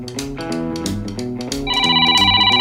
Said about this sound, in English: We're gonna call my voicemail right now.